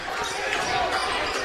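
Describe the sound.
Basketball bouncing on the court during a game, a few dull thuds under a steady wash of crowd noise and voices.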